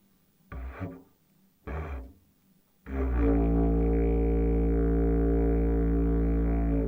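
A didgeridoo played slowly with the lips at the front of the mouth gives two short, buzzy bursts. These are followed by a loud, steady, low drone rich in overtones that holds to the end.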